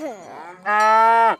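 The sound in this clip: A spotted cow moos on an alpine pasture: one long, loud, low bellow that starts softer, then swells into a strong, steady call for most of a second before cutting off.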